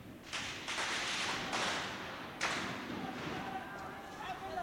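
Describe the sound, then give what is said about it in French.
Saturated gunfire recorded in the field in Egypt: a few sharp, clipped cracks come in irregular succession over steady, noisy background ambience. “Ouais, et là, ambiance Égypte tire. Donc, difficile à enregistrer les tirs, enfin, ou pas d'ailleurs. Ça sature.”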